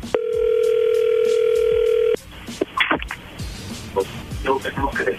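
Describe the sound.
A steady telephone tone sounds loudly for about two seconds as a call is dialed again, then cuts off and gives way to people talking.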